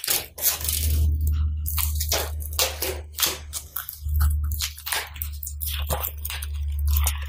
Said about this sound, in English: So tape goes on, tight. Doesn't matter which direction you're going, overlapping is fine too.